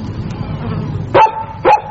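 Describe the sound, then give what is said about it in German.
Two sharp barks from a dog, about half a second apart, cut through a low, steady background rumble. “ist das dein Hund? Ja, wieso? Ja, das ist der Hund.”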